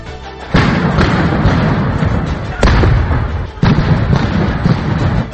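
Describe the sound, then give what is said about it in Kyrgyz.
Gunfire during street clashes between demonstrators and police in front of the government building in Bishkek, Kyrgyzstan: loud, sustained bursts of rough noise with a few abrupt, sharp onsets. “Бишкекте Ак үйдүн алдында атышуу болуп жатат.”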